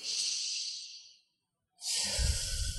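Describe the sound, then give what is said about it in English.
A deep breath taken during a guided affirmation and tapping exercise: a long, airy inhale, a brief silent pause, then a full, breathy exhale with a low rumble, heard alone. “And take a deep breath.”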